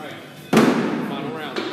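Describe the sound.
A thrown hatchet strikes its target during a hatchet-throwing game over beers, landing as one sharp, loud thwack with a brief ringing tail, while people keep talking around it.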